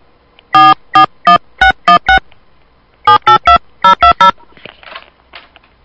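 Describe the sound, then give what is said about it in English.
Touch-tone DTMF beeps dial a phone number: twelve short, loud, evenly spaced tones in three bursts of six, three and three, followed by faint rustling. “Please enter the phone number you would like to dial, followed by the pound key.”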